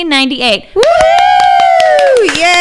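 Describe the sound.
Quick hand claps under a loud, sustained voice that holds a steady tone, with a short vocal burst before it.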